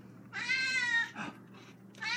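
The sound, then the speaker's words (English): A cat meows as tuna is about to be brought out to it: one long, drawn-out meow followed by a few shorter, softer cries, all faint and with no talk. “this is me about ready to take the tuna out to Oliver. Oliver. How old's this cat?”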